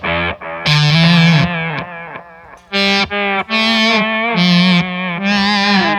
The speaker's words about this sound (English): It's just a really good fuzz octave. That's great. And not noisy, not particularly noisy at all. And not out of control either. And like not out of control, so you add the delay in there.